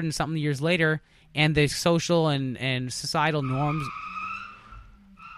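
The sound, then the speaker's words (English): A car burning out its tires in an alley gives a long, high, drawn-out squeal that rises out just as a man stops talking and rings on alone to the end. “Just so you know, that sound was basically somebody back in my alley burning out in an alleyway, which doesn't make a whole lot of sense. That guy's making war on his tires.”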